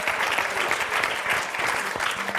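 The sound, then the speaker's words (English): Applause from an audience at a comedy show, a steady, dense clatter of many hands clapping that stays loud and even for the whole stretch, with no talk over it. “That deserves an applause.”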